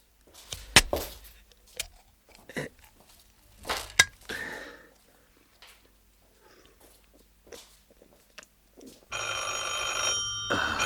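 A telephone rings in a sustained, bright tone near the end, after a few scattered knocks and thuds.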